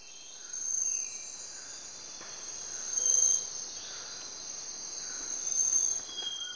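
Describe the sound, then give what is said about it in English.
A faint tropical forest in Ecuador hums with a steady, high-pitched drone of chirping insects. Louder swells of chirping rise three times over the continuous buzz. “This is the sound of a tropical forest in Ecuador.”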